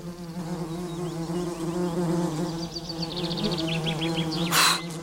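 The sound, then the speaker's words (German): Wasps buzz around leftover fig bread on a garden table, a constant droning hum with wingbeats rising and fading as they fly close, ending with a brief sharp burst of noise. “Die Wespen stürzen sich auf die Reste des Feigenbrots.”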